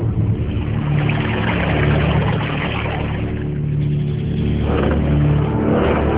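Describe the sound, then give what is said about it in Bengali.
A motor boat's engine drones as it comes in to a river landing, a steady, loud mid-pitched hum that runs without a break. “নৌকা এসে ঘাটে ভিড়বার সাথে সাথে নেমে পড়ল।”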